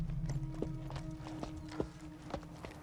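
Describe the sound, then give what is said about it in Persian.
Cows walking in a street, their hooves striking the hard ground in several sharp, irregular clops over a steady low background. “نه گاوای لعنتی تو خیابونم”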